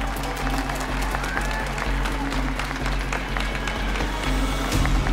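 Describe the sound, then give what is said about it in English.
Wedding guests at a reception applaud and cheer, producing steady, dense clapping and crowd noise that holds throughout and swells slightly near the end. “Come on, folks, let's make some noise to get his attention.”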